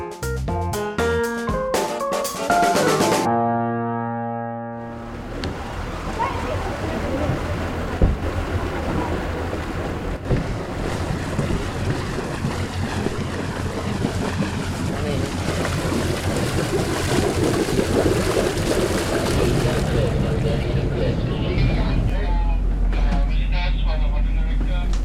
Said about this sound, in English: bringing you the sounds of the Crystal Serenity